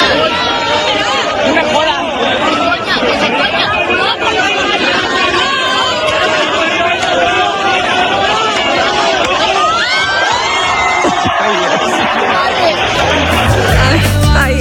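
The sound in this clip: An audience cheering on an elderly performer of about 70 to jump: a dense, continuous crowd of chattering and shouting voices throughout, with no single voice standing out.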